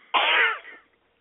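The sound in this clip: A single sneeze bursts out sharply and loudly, lasting under a second, and trails off quickly into near silence.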